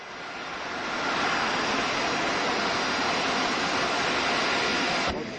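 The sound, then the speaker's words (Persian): An Iran Air airliner landing at an airport makes a broad jet roar that swells over the first second, holds loud and steady, then cuts off abruptly near the end. “فرودگاه کرن، هواپیمای ایران ایر به زمین می نشیند.”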